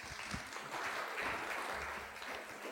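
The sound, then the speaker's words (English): Faint audience applause in a church in Seaford welcomes a speaker to an evening lecture. The clapping is soft, dense and even, and continues throughout without voices. “Let's, let's put our hands together and welcome Andrew as he comes to speak to us.”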